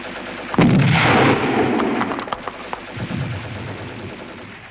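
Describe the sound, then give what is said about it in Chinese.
Artillery fires and shells explode nearby: a heavy, sustained blast is followed by several sharper bangs that fade into a rumbling background. “敌人的炮声越来越近，炮弹在不远的地方爆炸。”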